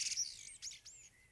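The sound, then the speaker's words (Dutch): A common blackbird sings a brief, faint burst of fluty, whistled notes that slide and jump in pitch, heard alone. “Iedereen kent het geluid waarschijnlijk ook wel. Het is echt, de merel komt best wel veel voor. En als je er gewoon naar luistert, soms denk je echt van, is dit nou een computer die aanstaat?”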